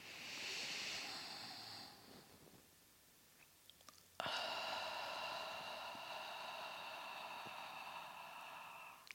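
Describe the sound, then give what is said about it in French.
Slow, deep breathing in and out, heard alone as long, airy rushes of breath. The first breath lasts about two seconds, then a pause, then a longer, steady breath that runs to the end. “Vous faites quelques inspirations amples et profondes. Alors surtout, on n'est pas dans le contrôle, on n'est plus en apnée, vraiment on y va doucement et je le fais avec vous pour vous montrer.”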